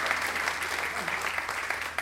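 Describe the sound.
Audience applause for a contestant who just earned a perfect score, a dense, even round of clapping that holds steady for about two seconds.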